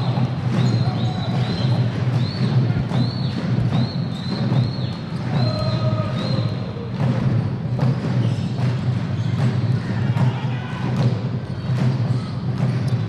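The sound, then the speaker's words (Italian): Basketball dribbled on court during an Italian professional game with Scafati on offence: many rhythmic thumping bounces mixed with high sneaker squeaks over constant crowd noise. “Insiste Scafati in palleggio, Imbro sfrutta il blocco di Thompson”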